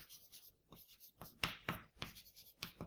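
Chalk or marker strokes on a board during a lecture on maximum and minimum solutions, a string of short scratchy scrapes and taps in an uneven rhythm, some sharper than others, with quiet gaps between.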